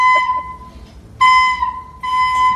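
A child plays the recorder in a few shrill, breathy held notes separated by short gaps. The notes stay at a steady high pitch, with no voices.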